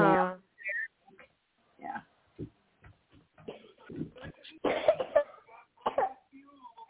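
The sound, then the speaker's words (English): A young child coughing in a quiet, irregular series of short, rough bursts, some clustered close together, with brief pauses between them and no loud peaks. “Oh, somebody's got a cough. Sound like a young one has a cough.”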